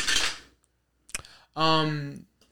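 Dice are rolled during a tabletop roleplaying game: a short rattling burst, a sharp click, then a brief voiced tone.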